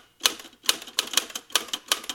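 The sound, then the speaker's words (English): Key strikes on a musical typewriter, the top row of keys hit one at a time: several crisp metallic clacks in an uneven rhythm, each with a short bright ring, fairly quiet with silence between. “So I've got a musical typewriter here.”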